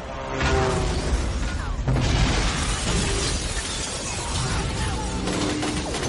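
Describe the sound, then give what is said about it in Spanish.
Explosions tear through a military barracks in an action film, a dense, continuous roar of booming blasts and shattering, crashing debris that stays loud throughout. “En el cuartel hay explosiones.”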